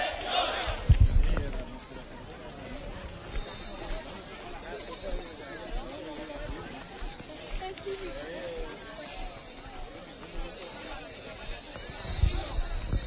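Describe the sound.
Hoofbeats of horses passing along a pilgrimage road during a brotherhood's entry into El Rocío, Huelva, mixed into the steady noise of a busy crowd with people talking throughout.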